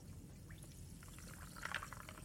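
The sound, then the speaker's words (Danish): Water being poured in a bar, faint and soft: a gentle trickling stream over a low, steady background hum, briefly growing brighter and splashier toward the end. “Jeg tager lige noget vand eller noget.”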